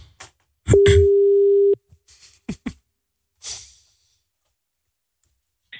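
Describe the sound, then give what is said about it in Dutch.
A phone ringing tone during an outgoing call: one steady, even-pitched hum held about a second, surrounded by a few short clicks and brief noises. “We bellen jouw vrouw, Tessel.”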